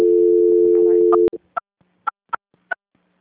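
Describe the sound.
A steady telephone tone holds for about a second, then cuts off abruptly as a call is transferred after an invalid extension, followed by five short, evenly pitched beeps with faint quieter blips between them.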